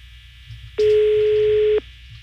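A telephone ringback tone sounds during a live call-in to a listener: one steady, mid-pitched ring burst of about a second, standing out loud and clear over a faint low background.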